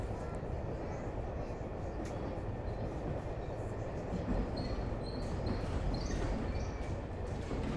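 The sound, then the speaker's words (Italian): A train slows down in a crowded carriage, with a steady loud rumble of wheels on track and thin, high wheel squeals rising over it in the second half. “Finalmente il treno rallenta, forse siamo arrivati.”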